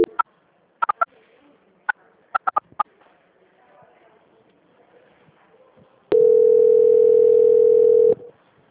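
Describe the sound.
A telephone ringing tone sounds while a call is transferred: one steady, loud two-second tone that stops abruptly, preceded by a series of short, sharp clicks and beeps over near silence.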